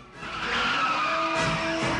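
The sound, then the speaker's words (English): Tires skid and squeal as a jet plane touches down on the runway tarmac, a loud, sustained scraping hiss with thin tonal whines running through it. “plane hits the tarmac”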